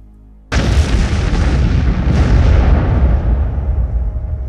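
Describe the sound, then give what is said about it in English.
A bomb explodes with a sudden, loud, deep blast that breaks out of near silence, then a heavy, broad rumbling roar that sustains and slowly fades. “And then, the bomb goes off.”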